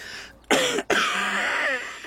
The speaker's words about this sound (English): I ken that cough.